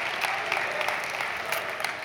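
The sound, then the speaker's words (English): Audience clapping at a college chapel service on the first day after New Year: dense, steady applause from a crowd, fairly faint and even. “Yeah, you can clap, you guys.”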